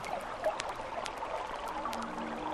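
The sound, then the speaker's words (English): Soda is poured in a quiet, steady stream with a continuous fizzing hiss and a few faint crackles of bubbles throughout. “and as desperately thirsty as I might be at the moment, I can only pour the soda for others.”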